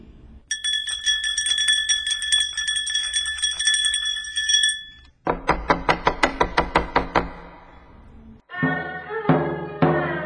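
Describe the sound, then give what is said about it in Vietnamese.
A theatre bell rings before the curtain rises, a sustained, bright metallic ringing lasting several seconds. A quick run of many sharp knocks follows, then more ringing, tonal strikes. “Trong rạp hát, tiếng chuông rung len keng, rồi cây giọng cộp cộp kéo màn lên khai diễn.”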